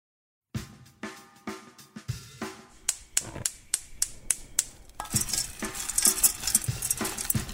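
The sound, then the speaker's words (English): Hard, sticky treacle pellets being stirred in a pot to melt them, in a suburban home kitchen in Austin, Texas. Many rhythmic clattering scrapes come closer together, then merge into a dense, continuous rattling and scraping, with no talk. “I'm stirring up the pellets of the treacle. I'm stirring them up to melt them uniformly in the pot, and you can see how sticky that is.”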